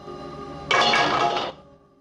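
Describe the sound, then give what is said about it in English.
A scrubbing brush is tossed into a bowl, making one loud, brief clatter that lasts under a second against an otherwise quiet background. “then crouches down and picks up the scrubbing brush. He tosses it into a bowl.”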